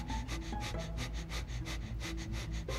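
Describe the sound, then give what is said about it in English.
Breath of fire during a Kundalini yoga practice: rapid, evenly spaced nasal exhalations in a fast steady rhythm. Many sharp breathy puffs run continuously at moderate loudness. “Okay, so that's breath of fire.”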